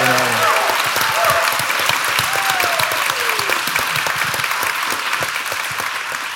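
Sustained applause from an audience honoring President Joe Biden, a dense, even wash of clapping that holds steady and fades only slightly toward the end.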